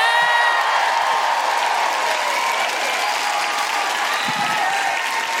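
A stage audience applauds loudly and steadily for a performer's entrance, a dense unbroken wash of clapping with faint cheers and whoops mixed in.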